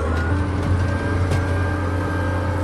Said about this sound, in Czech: A už jedeme vstříc kameni odstřelenému. Trochu to drncá, jak klade kámen odpor